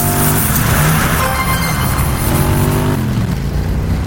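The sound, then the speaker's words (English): Loud engine roar of cars passing by in a racing video game, a steady, dense rumble with no clear gaps or separate passes. “That noise is me passing cars, and I wasn't even moving.”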